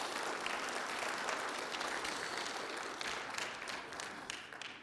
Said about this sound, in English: Let's give them a hand of appreciation.